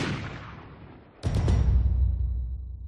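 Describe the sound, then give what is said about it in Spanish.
A single loud gunshot cracks out sharply after a fading noisy stretch, then rolls into a long, heavy, rumbling tail that stays loud to the end. “El asesino culminó su plan pegándose un tiro en la cabeza.”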